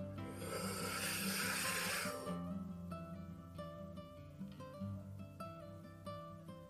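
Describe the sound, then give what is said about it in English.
A long, loud breath of air is drawn during a guided relaxation exercise, a steady rushing sound lasting about two seconds, then fading into soft sustained tonal music. “So let's go ahead and take one more deep breath in.”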